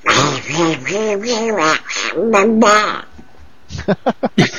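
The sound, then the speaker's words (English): A cartoon duck-style squawking voice, meant as a giant toilet flush mixed with quacking, gives several loud, wobbling, nasal bursts. A few short, sharp clicking pulses follow at the end. “that was a combination of a toilet flushing and Donald Duck.”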